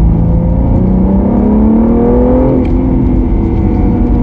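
Car engine drone and road noise in second gear at about 60 km/h with the accelerator released: a loud, continuous, steady hum with engine tones edging slightly upward, no voices.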